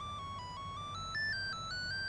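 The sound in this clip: A mobile phone ringtone plays a faint electronic melody of stepped tones, climbing to a higher note midway and continuing without a pause.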